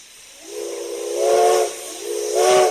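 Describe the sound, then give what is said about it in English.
A steam train whistle sounds at a train station in Somersworth, New Hampshire: two loud, steady blasts with a breathy hiss, the first longer and swelling partway through, the second shorter, with no voices. “slinks off to the train station”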